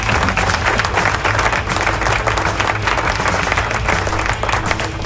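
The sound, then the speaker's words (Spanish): Applause sound effect played on a radio station in San Juan, Puerto Rico: dense, steady clapping with a crowd roar, loud and continuous throughout without pause. “Bueno, esto es parte de aplausos. Ahí van los aplausos.”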